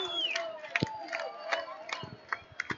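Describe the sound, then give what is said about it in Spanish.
Concert audience chanting together in an outdoor crowd at a Malvinas vigil in 2019. Many raised voices blend into a rhythmic chant, broken by a few sharp, loud hits. “Una más y no jodemos más, canta el público.”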